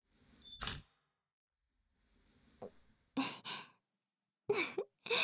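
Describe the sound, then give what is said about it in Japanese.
Camera shutter sounds from taking photos: a few short, sharp bursts separated by quiet gaps, mixed with soft breathy sounds. “そうだ、写真撮っておこう。”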